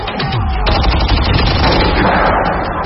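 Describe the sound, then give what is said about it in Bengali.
A volley of gunfire as a crowd fires several dozen shots toward a squad of armed shooters: many rapid, overlapping sharp cracks and booms form a loud, dense barrage throughout. “এবারে জনতার ঝাঁক থেকেও বেশ কয়েক dozen গুলি ছুটে গেল shooter বাহিনী তাক করে।”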